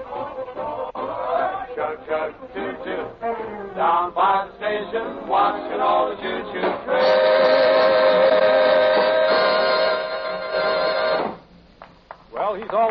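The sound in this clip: Train sound effects over music: a run of rhythmic chugging bursts gives way to a long, steady steam whistle tone that holds for several seconds and then cuts off.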